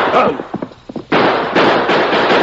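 Gunfire in an old western shootout: several sharp cracks, then a dense, loud stretch of overlapping blasts and rough noise that continues to the end.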